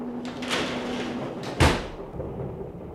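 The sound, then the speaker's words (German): A door is shut with a single heavy thud about halfway through, preceded by faint rustling and shuffling, with no voices during the moment of closing. “Machen Sie Tür zu.”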